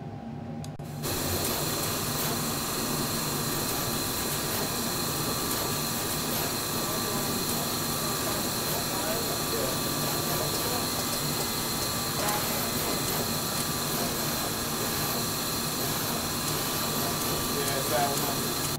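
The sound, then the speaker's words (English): Adafruit factory manufacturing machines, including pick-and-place equipment, run with a dense, steady mechanical whir and hiss that holds at an even level after a brief quieter start. “I'll say it was not great in the beginning when we had to have all the machines off because we weren't manufacturing, but the machines are back.”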